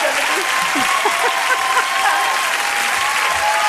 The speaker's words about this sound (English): All right. Enough clapping.